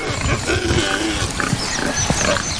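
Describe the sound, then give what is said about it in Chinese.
Wild boar grunt and snuffle while grazing, a few rough, low grunts over a constant dense rustling noise. “野猪在附近吃草”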